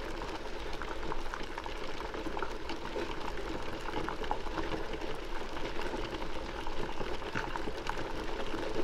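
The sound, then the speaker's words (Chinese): Freshly boiled water bubbling in a pot, a steady, continuous gurgle and fizz of small bubbles that keeps an even level throughout, with no voices. “那是一锅刚烧开的水，咕噜咕噜，咕噜咕噜，就在你的正前方。”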